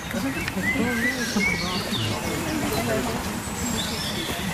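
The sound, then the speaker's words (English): A blackbird calls in winter on a housing estate, giving several short, bright chirping phrases that sit over a steady low background rumble. “Over to my left over here, we can hear a blackbird calling. If you live in an estate in particular, you'll find that the blackbird is probably the first bird that will call.”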